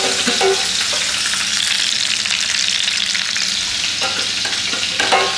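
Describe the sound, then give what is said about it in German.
Food searing in a pan over moderate heat, a loud, steady sizzle that runs unbroken throughout, with occasional light stirring clicks. “anbraten. nicht zu viel Hitze.”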